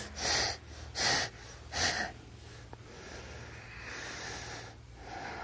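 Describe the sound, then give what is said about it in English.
Three sharp, forceful exhales during a yoga pose that tightens the belly. They are evenly spaced and quiet, followed by softer steady breathing. “So you do three sharp exhales.”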